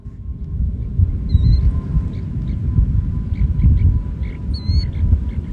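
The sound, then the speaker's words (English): A western snowy plover chick chirps from inside its egg just before hatching, giving two brief, thin, high chirps over a loud, continuous low rumble. “That's the sound of a snowy plover chick chirping from inside an egg. The chicks tap at the eggs just before hatching.”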